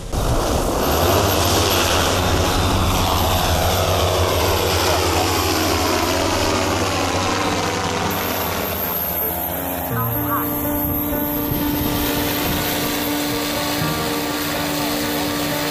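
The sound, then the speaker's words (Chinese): Drone motors and propellers whir up on a new airframe readying for takeoff on an endurance test flight, a loud, steady buzzing hum with strong tonal harmonics whose pitch shifts partway through. “检查电机、螺旋桨，旋转正常。好，好，大白鲨新机体航时测试，准备开始起飞。”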